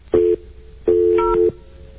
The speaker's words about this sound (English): can you dial any faster? Waiting for an operator.